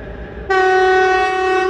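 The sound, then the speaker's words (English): A small train passing in Mongolia gives a low rumble, then its horn bursts in with a loud, sustained, steady blast that holds to the end, sounding alone with no talk. “I wasn't going to record, but a train's coming and I figure”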